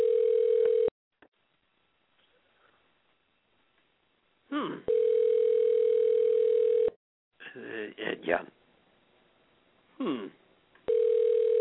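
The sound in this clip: Ringback tone of an unanswered phone call: a steady, low-pitched tone about two seconds long repeats after long gaps, and people talk during the pauses between tones.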